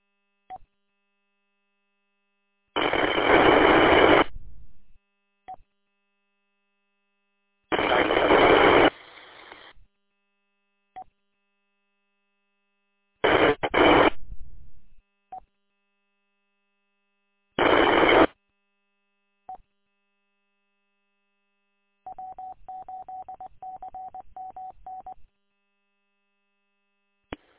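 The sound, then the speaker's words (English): An amateur radio repeater keys up and drops back down: four separate bursts of harsh static, each cut off sharply, with small clicks between them. A rapidly pulsing tone follows near the end, and no voice comes through. “Nothing heard. The repeater is just opening up and closing back down.”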